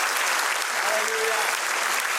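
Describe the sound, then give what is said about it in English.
A church audience claps together in a dense, steady wash of applause that holds at an even level throughout without a break. “Let's just give the Lord a clap offering.”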